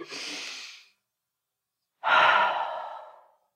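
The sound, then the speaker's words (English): One deep breath is drawn in, airy and hissing, then a pause, then a longer and louder sighing exhale that gradually fades, during a guided group prayer. “just even a big inhale and exhale”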